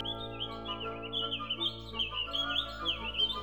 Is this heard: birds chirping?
yes